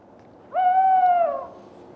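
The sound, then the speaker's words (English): An owl calls once in the daytime: a single clear, hollow hoot lasting about a second. It holds an even pitch, dips slightly as it fades, and stands alone over faint background hiss. “It's not often you see an owl in the daytime, is it?”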